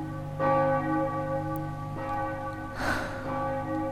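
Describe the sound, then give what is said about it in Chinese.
New Year church bells ring in a few slow, resonant strokes. Each note swells over a sustained, fairly quiet hum of overlapping overtones, with no speech. “你听，钟声，新年的钟声”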